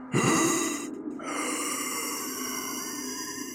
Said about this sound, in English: As I backed away, I heard what I can only describe as a hoarse, wheezing noise.